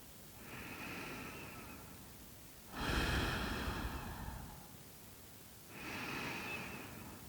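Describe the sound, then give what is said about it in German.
Slow, deep breathing during a guided eyes-closed relaxation exercise: long airy breaths, each lasting two to three seconds, with a heavier, louder one in the middle, quiet and alone without talk. “dann schließ doch jetzt einfach die Augen und nimm mal so 3 tiefe Atemzüge.”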